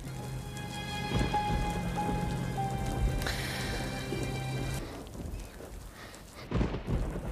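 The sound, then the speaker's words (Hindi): Steady rainfall with a continuous, dense hiss of drops that holds at an even loudness throughout, swelling briefly into a few louder splashy bursts near the end, with no voices. “बारिश की आवाज से मुझे सुकून मिलता है, चहलकदमी का दिल चाहता है बारिश में।”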